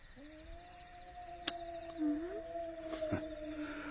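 A person imitating a wolf howl with a long, steady, drawn-out tone that holds one pitch with a slight bend partway through, rather faint over a low background hiss.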